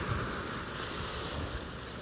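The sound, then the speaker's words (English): Ocean waves wash steadily as continuous broad surf noise with wind, heard outdoors by the water, with no clear separate breakers and no voices. “by the waves, and I thought that some natural sounds in the background of the waves and nature could be a nice way to do a meditation.”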